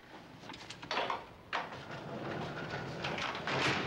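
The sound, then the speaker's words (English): A heavy cell door at Alcatraz prison slides shut as a guard moves a large lever, heard as a few faint scraping, clanking bursts followed by a sustained low rumbling slide. “The door slides open. Frank enters. The guard moves a large lever to shut the door.”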